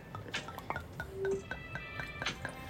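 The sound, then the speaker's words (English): Wine pouring, heard as a faint run of quick, evenly spaced liquid plinks and small glugs, with light glass clinks mixed in and no voices. “I don't know if y'all can hear that, but that's literally the wine pouring right now.”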